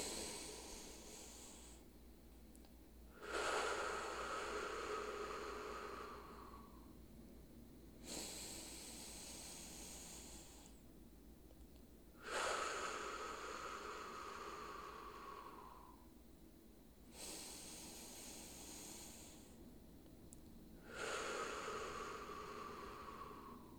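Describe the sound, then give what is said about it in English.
Slow, deep breathing through the nose in a group peace-and-love meditation: three long airy inhales alternate with softer exhales, each breath a steady hiss lasting a few seconds, faint and without talk. “let's just be in a place of peace and love for three breaths all together, in through the nose.”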